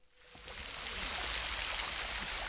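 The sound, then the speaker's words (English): Water splashes steadily from rows of outdoor fountains framed by crimson flowers at a late-afternoon concert setting, a dense, even rushing hiss that swells during the first half second and then holds at a fairly soft level. “Rows of fountains made their own music, framed by crimson flowers.”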